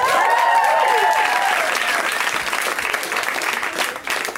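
Loud audience applause greets a guest named Will, a dense, steady clapping that holds at full strength throughout.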